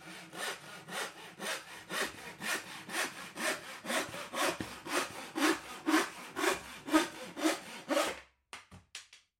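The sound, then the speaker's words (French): A hand saw cuts through wood with many steady, rhythmic rasping strokes, each one distinct, before the sawing breaks off into a few brief final scrapes. “C'est la scie qui permet de découvrir sa résistance, la dureté de ses fibres. C'est elle aussi qui permet de découvrir les secrets de sa structure et de constater que couper dans la longueur du bois est beaucoup plus difficile que de scier perpendiculairement au fil.”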